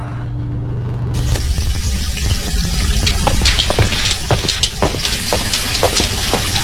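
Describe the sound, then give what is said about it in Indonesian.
Tap water from the mains supply gushing out of a wide-open faucet, a loud, steady rushing and splashing that runs unbroken throughout. “Kok seperti ada suara air? Iya, Pak, benar. Itu humpung air dari PDAM-nya mengalir.”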